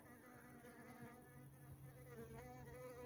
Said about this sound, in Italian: Ecco, questo è il rumore incredibile di tutte le api sirfidi bombi